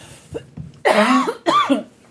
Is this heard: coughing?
yes